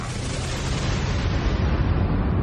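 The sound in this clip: Explosion sound effect in a radio news jingle: a loud, broad rumbling blast that stays sustained, its hiss slowly dulling as it rolls on.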